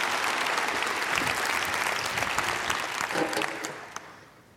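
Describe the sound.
An audience applauds to welcome a speaker at Overlake, with dense, sustained clapping that thins out and fades away at the end.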